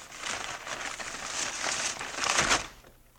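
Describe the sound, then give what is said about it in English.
Crinkling and crumpling of gift wrapping paper torn off a child's birthday present, a toy fire engine: a few quiet bursts of papery rustle that build toward a louder crackle near the end, then stop. “Please, Paul, it's his birthday. All right. Go ahead, unwrap it.”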